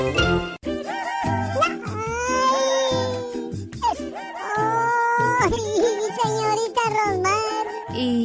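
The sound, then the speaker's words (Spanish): Loud, wailing crying with long, quavering, high-pitched sobs that carry on almost without a break. “ahora por qué llora, si se puede saber?”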